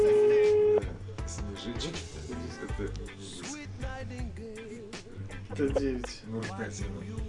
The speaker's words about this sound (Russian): Вот, я пытаюсь позвонить.